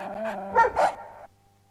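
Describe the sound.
Dog barking, two quick, sharp barks in close succession after a brief low growl-like sound, then near silence.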